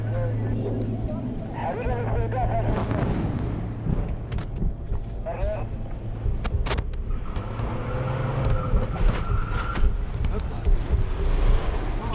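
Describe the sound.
A car engine rumbles steadily under heavy wind noise, with voices talking over it and a couple of sharp knocks or clicks along the way.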